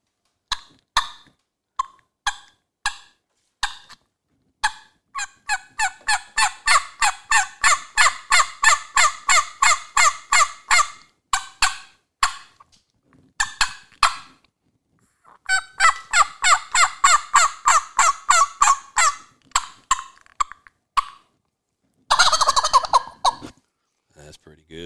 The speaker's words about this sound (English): That's a little tube call. I use that call a lot. Sometimes the pitch of that call, it's just what they want.